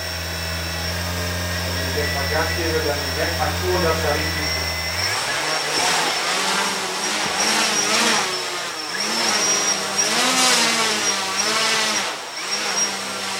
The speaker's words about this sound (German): Okay, jetzt starte ich den Motor mal. Also ich habe ihn da festgesetzt, also nicht, dass er nach oben kann.